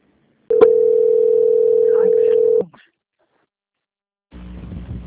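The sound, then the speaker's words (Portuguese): A steady, single-pitched telephone line tone plays while a call is being transferred. It holds loud and unbroken for about two seconds, then cuts off. After a silent gap, muffled line noise returns. “Vou transferir a ligação, tá? Aguarda na linha, por favor.”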